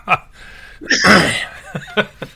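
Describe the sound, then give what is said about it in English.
A cough comes as one harsh, loud burst lasting about half a second, set among short vocal sounds before and after it. “that cough is contagious there”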